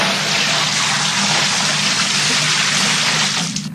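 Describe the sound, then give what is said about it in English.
A bucket full of liquid, apparently beer, is emptied onto people's heads. The loud, continuous gushing splash holds steady throughout, then tapers off at the very end. “You just emptied a bucket full of liquid on our heads.”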